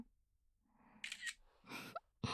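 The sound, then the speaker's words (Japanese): A camera shutter taking photos fires a few crisp mechanical clicks in quick bursts, fairly quiet against near silence. “ちゃんと証拠も撮らせてもらいますね。”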